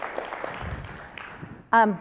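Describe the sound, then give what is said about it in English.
Audience applause after group members share in a presentation session. Soft, scattered clapping tapers off over a couple of seconds, then a man starts speaking loudly. “Round of applause for everybody.”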